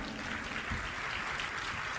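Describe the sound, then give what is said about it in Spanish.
Church audience applauding a woman during a service: dense, steady clapping holds at an even level for the whole two seconds, with no talk over it. “Le invito a dar un aplauso a esta señora.”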